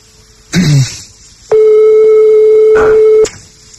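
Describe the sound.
A telephone rings during a prank call: one long, steady tone holds for nearly two seconds after a brief earlier burst of noise.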